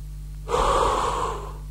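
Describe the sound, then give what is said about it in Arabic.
A single deep breath from a breathing exercise, heard alone: a strong, airy draw of about a second that starts abruptly and tapers off gently. “دلوقتي هنبتدي التنفس، كمان مرة.”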